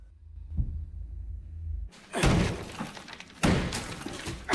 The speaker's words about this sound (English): He pulls out a claw hammer and starts smashing at the wall of the panic room.